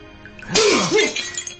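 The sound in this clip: A porcelain plate smashes into shards: one sharp, loud crash of breaking ceramic that rings and scatters for about a second before fading.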